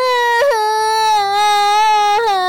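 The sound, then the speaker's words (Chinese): A child crying loudly: a sustained, strongly tonal wail with a steady pitch, broken by two brief sobbing catches where the voice jumps up, loud and alone. “说着说着，他就大哭了起来。”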